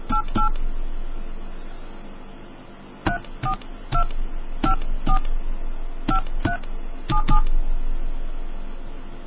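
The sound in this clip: A telephone number is dialed as a long run of crisp touch-tone beeps in an irregular rhythm, loud over a low steady hiss.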